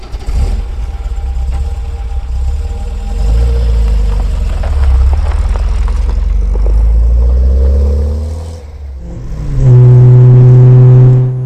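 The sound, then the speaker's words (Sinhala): A vehicle sets off on a journey: the engine rumbles, then revs with a rising pitch, dips briefly and settles into a louder steady drone. No voices are heard. “අපි යමු අපේ වාහනයට නැගලා අපේ ගමන පිටත් වනා”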